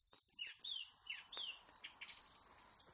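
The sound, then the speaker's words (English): Blackbird song ending in a little flourish: a few quick, high, sliding chirps in short bursts, faint and clear, with no talk over them. “Okay, so that was a blackbird went chee-chee-chee-chee at the end with a little flourish.”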